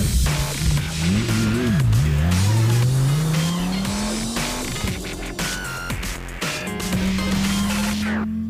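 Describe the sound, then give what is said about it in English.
Honda Civic Type R engine revving hard as the car drives, a sharp note that dips and then climbs steadily, breaks off briefly, and climbs again, as if shifting through gears. “Check it out, the Honda Civic Type R.”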